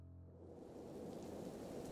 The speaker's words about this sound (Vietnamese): Mưa giông bên ngoài rất lớn, biển kêu lên ầm ầm, tưởng như đang sụp đổ. Sấm chớp liên hồi